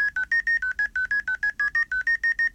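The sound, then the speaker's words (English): Phone keypad tones enter a Zoom meeting ID: a rapid, evenly paced run of many short two-pitch beeps, each a steady bright tone with brief gaps, loud and alone without talk. “Welcome to Zoom. Enter your meeting ID followed by pound.”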